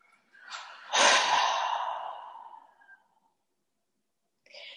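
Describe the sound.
A deep breath during a seated meditation exercise: a faint, airy inhale, then a louder, breathy exhale that gradually fades out over about two seconds.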